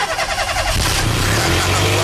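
A car engine starting gives a loud, rough mechanical roar that holds steady and settles into a lower running hum.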